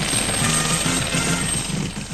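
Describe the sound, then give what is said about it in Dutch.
Helicopter flying back to base after a demonstration at the beach, its engine and rotor making a loud, steady, throbbing drone that holds without a break from start to finish. “De helikopter gaat terug naar de basis.”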